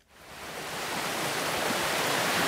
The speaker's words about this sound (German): Durch das Heutal meandert die Wissinger Laber in großen Bögen. Sie fließt hier noch in ihrem ursprünglichen Bachbett.